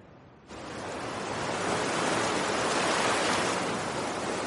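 Ocean waves breaking hard on a narrow strip of wet sand beneath steep cliffs, a broad, hissing roar that surges in after a quieter opening and swells toward the middle before holding steady.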